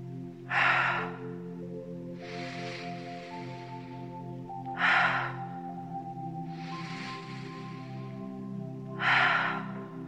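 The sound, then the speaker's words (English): Guided breath work, breathing in through the nose and out through the mouth. Five breaths alternate between three sharp, louder bursts and two softer, longer ones, evenly spaced over a steady, low sustained musical drone. “Breathe in through your nose and let it go through your mouth without any pause.”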